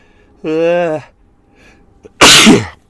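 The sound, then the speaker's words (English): A single human sneeze: a drawn-out voiced build-up, a short pause, then one loud, explosive, breathy burst. “I'm going to sneeze.”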